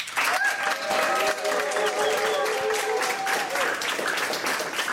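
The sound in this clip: Applause from a talk show's studio audience: a full, steady rush of many hands clapping that starts at once and continues evenly for about five seconds.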